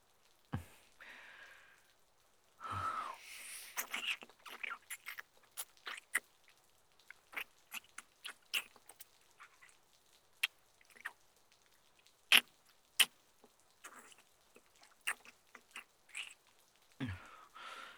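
Wet licking and mouth sounds: many short, soft smacks and clicks at an irregular pace, quiet overall and without talk.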